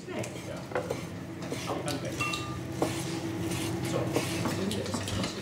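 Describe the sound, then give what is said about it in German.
A knife cuts a fish fillet into tartare, giving scattered light taps, scrapes and small clinks at an irregular pace, moderately soft throughout. “So, und aus dem würde ich tatsächlich jetzt dann eben unser Tartar schneiden.”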